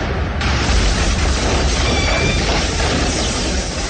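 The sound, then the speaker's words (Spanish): A loud, sustained explosion roars as a fireball from a burning truck bursts against a ray gun. It is a dense, rumbling blast lasting about four seconds, without separate distinct bangs. “La bola de fuego en que se ha convertido estalla cuando impacta contra el lanzarrayos.”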